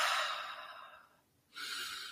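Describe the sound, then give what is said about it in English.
A deep breath during a breathing exercise: a soft, airy rush that fades to near silence, then a second airy breath sound swells back in, quiet and alone, with no talk. “So we really want to take that breath in.”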